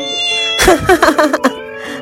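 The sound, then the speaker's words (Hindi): Cat meowing at night: a quick, loud cluster of several strained meows over a steady, faint tonal background, with no talking. “वो देखो, रात के समय बिल्ली भी बाघ जैसी दिखती है।”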